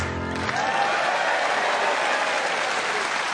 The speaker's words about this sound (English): Not helped with the sound of the Manchester audience there. Grinding up their meth crack in time.